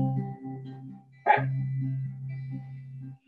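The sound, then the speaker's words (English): A single dog bark, sharp and brief, cuts in suddenly over sustained tones, then the steady tones continue without further barking. “And if you hear my dog barking, he suddenly is barking and I don't know why.”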